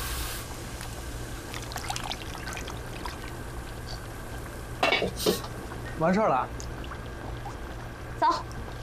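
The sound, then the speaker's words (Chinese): Egg yolk oil cooking in a pan, a faint steady hiss with a few sharp clinks of a utensil against the cookware scattered through the second half. “你干嘛呢？熬蛋黄油。”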